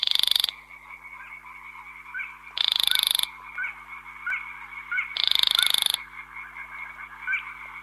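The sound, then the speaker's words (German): Three harsh, rasping bursts from a secretive grey-brown, black and white marsh bird of reeds and rushes repeat at a steady interval, while frogs croak continuously in the gaps between them. “ein graubraun-schwarz-weißes Schilf- und Binsentier, was sich nur selten aus dem Dickicht heraus bewegt. Jagt in der Dämmerung kleine Insekten, aber wie gesagt, wird man nie sehen. Man kann es hören.”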